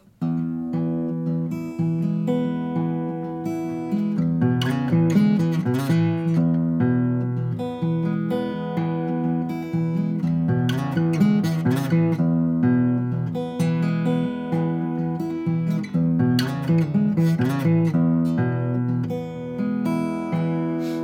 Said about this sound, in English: you can be finger picking an E major chord, take that first measure and throw it in there, come back to the E major chord. That would sound something like this.